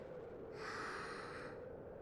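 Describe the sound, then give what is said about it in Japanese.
A slow, deep breath drawn in during a relaxation stretch, a soft, airy inhale swelling for about a second before easing off, faint and without speech. “じゃあ最後に深呼吸。吸って”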